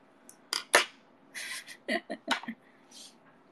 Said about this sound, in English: I'm almost done with this other sticker thingy. And then I'm gonna have to cut new ones again.